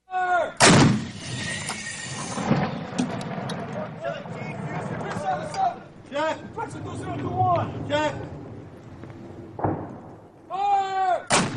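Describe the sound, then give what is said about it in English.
Heavy artillery fired by U.S. troops on a mountainside near Kunar, Afghanistan, close to the Pakistan border: several loud, sharp booms among men's voices talking and calling out. “Here from a mountainside near Kunar, near the Pakistan border, U.S. troops used heavy artillery just last week to hit enemy fighters.”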